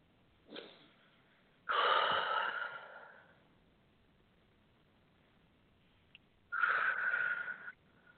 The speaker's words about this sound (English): Nice deep breaths.